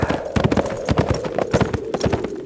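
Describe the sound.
Rapid clip-clop of a horse's hooves trotting on ahead, a steady run of crisp, closely spaced hits with no voices.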